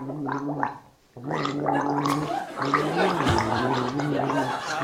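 Someone gargles a song, making a wet, bubbling, pitched vocal tune with steady sustained tones, a short break near the start, then continuous gurgling.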